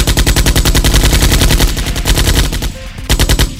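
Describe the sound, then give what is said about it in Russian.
Automatic rifle gunfire: loud, rapid continuous bursts of shots that break off briefly near the end, then resume. “Звуки автоматных выстрелов разорвали тишину,”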